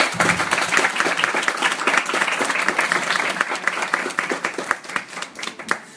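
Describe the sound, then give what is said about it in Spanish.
Audience applause at a comic convention panel as a guest is welcomed: dense, continuous clapping that thins out and fades toward the end. “un fuerte aplauso para Death, que nos acompaña el día de hoy.”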